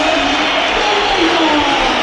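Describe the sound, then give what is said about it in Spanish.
Stadium crowd whistles and jeers at a football player coming on as a substitute during a match against Granada, a dense, steady wall of crowd noise that holds at full loudness throughout. “Pito para Jacobo. Mira que ha sido un triple cambio. Pero sí, se han distinguido totalmente los pitidos”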